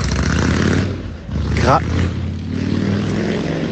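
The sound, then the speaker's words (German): A big Harley-Davidson motorcycle riding past on a Sicilian street in the evening, its loud, deep engine rumble dipping briefly, then swelling back up and holding steady. “Jetzt fährt hier so ein Typ in so einer fetten Harley lang.”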